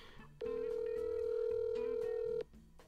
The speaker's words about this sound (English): won't answer the phone. it's gonna go in. You're right. It's gonna go into voicemail.